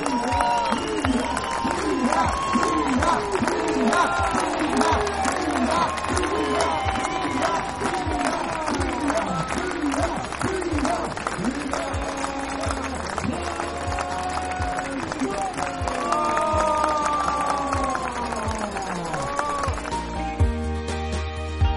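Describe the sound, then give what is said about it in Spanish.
A crowd cheers and shouts as a female skier comes down the last wall and crosses the finish line of a ski race. The mass of voices is dense and continuous, with many overlapping yells. “mira, escucha cómo la recibió el público cuando bajó el último muro y cruzó la meta.”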